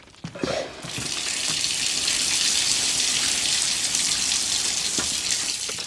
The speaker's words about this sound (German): Da musst du dir wohl noch mal die Hände waschen und von vorn anfangen.